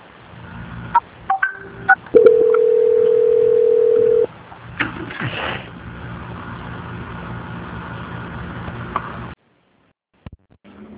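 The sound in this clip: A telephone call-transfer tone sounds as a bank call is passed to another department: a few short clicks, then a steady, loud tone lasting about two seconds, followed by low line noise and a brief drop to silence.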